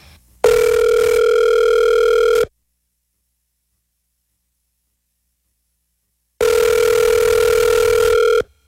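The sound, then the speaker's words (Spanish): Telephone ringback tone while a call is being placed: two loud, steady, buzzing tone bursts of about two seconds each, separated by a long stretch of silence. “Vamos a llamar a Andrés, el de Rock Vice, a ver qué tiene planeado para ese día.”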